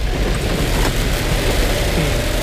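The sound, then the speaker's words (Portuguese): Heavy rain pours over a cotton field, making a loud, steady, dense hiss that holds without a break from start to end. “Chuva.”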